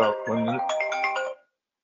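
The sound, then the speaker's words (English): A phone ringtone plays a short electronic melody of bright, stepped tones, then cuts off abruptly, leaving silence. “I can't believe I just got a phone call.”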